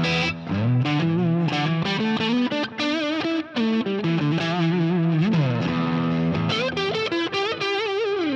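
A Gretsch electric guitar played through its neck pickup with a distorted, effects-laden tone, a run of sustained notes and chords with sliding pitch bends, loud and continuous without talk.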